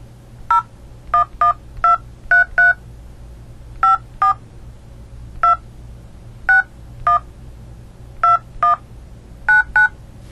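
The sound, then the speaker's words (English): Telephone keypad tones dial a number after a prepaid calling-card prompt: many short, clear beeps arrive in uneven clusters and pauses over a faint, steady low hum. “Please enter the telephone number you wish to dial now, or press *0 to recharge”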